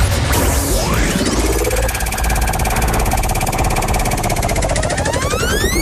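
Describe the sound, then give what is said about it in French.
A game show prize wheel spins with fast, loud, continuous ratcheting clicks, and sweeping electronic musical tones run over it. “Je vous propose de me lancer donc la roue, s'il vous plaît, avec un petit top.”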